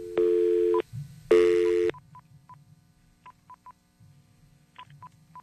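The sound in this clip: Touch tones ring out as a telephone number is dialed: two longer tones, then a quick irregular series of short, bright keypad beeps over a faint low rumble.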